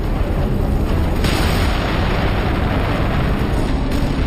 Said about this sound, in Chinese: 有一辆坦克履带被击中了，履带碎片瞬间四处飞散。